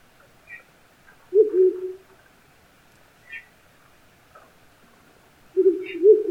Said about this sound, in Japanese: オスはホーホーと低い声で二声鳴き、少し間を空け複雑な節を続けます。